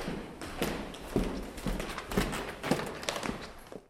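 Footsteps walk toward the basement of the town hall in Solothurn, a steady series of hard taps roughly twice a second, fairly quiet and even.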